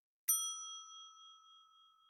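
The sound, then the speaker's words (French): A clock chime marking midnight: one bright metallic strike that rings on as a clear, sustained tone, slowly fading with a gentle wavering pulse. “Au moment de monter sur la scène, Cendrillon entend sonner minuit.”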